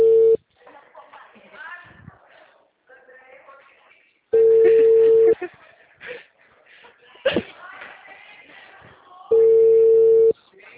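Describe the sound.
A telephone line tone during a call: three loud, steady tones of about one second each, spaced several seconds apart, with people talking in the gaps between them.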